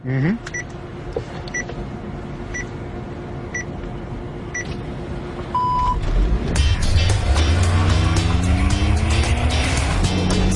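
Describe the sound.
A self-driving car starts up and pulls away: a few evenly spaced beeps over a steady hum, a short tone, then louder motor and road noise with a rising whine as the car speeds up.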